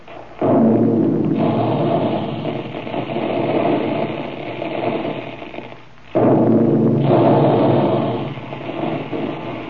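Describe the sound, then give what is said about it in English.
Puffing guns blasting wheat and rice in a cereal process: two loud roaring bursts, each with a sudden onset and a long, sustained rumble. The second begins right after a brief dip. “Big guns. That's the way they sound when they're making puffed wheat and puffed rice.”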